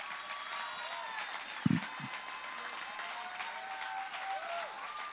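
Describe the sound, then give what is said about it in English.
An audience at a church service applauds and cheers as a speaker is welcomed up. The faint, steady clapping is dotted with scattered whoops and two brief low thumps early on. “Come on, let's give him a shout.”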